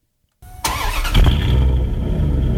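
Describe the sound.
A petrol car engine starts: a short electric whine from the fuel pump comes first, then the engine cranks, catches with a loud rev and settles into a steady running rumble.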